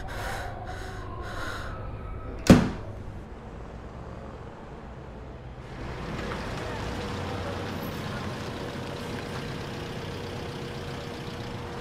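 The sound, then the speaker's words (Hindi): A door being shut with a single sharp thud, followed by a steady low background hum. “दरवाजा बंद करो”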